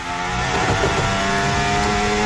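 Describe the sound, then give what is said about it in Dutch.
A Formula 1 car's engine screams at high revs as the car slides with oversteer and little traction, a dense, loud, steady roar throughout with no talk. “Is hier een lekker band bij Gasly, want die is zo'n slinger? Of heeft hij gewoon weinig tractie en overstuur en allerlei gegil en gedoe?”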